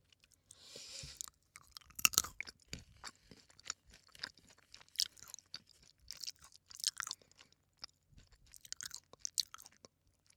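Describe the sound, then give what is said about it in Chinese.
Someone chews an almond close up: many quiet, irregular crunches and bites with brief pauses between them, alone and without talk. “你们好怪啊，老喜欢听我吃东西。”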